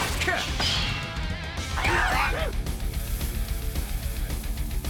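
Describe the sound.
A telekinetic catapult attack sends a flying sword smashing into goblins with a dense, continuous crash and rumble, while a voice speaks over the din.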